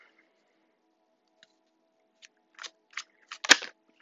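Tarot cards are drawn from a deck and laid down one by one in a spread. A few faint taps and soft slides build to a slightly louder slap as a card lands, with no talking.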